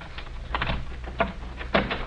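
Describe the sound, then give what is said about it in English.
A door is unlocked and opened, heard as a few faint clicks and rattling knocks from the lock and door, spaced irregularly over a quiet background. “Unlock the doc's door”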